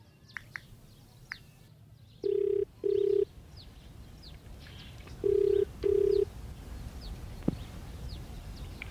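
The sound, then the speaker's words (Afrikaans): Telephone ringback tone while calling someone: two pairs of short, steady, low-pitched beeps, with birds chirping throughout in the background. “Ek gaan gou my seun bel.”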